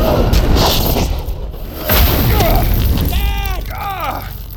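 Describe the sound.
A conjured earthquake effect in a magical duel: a loud, deep, rumbling roar with crashing bursts and whooshes, and voices crying out over the rumble near the end.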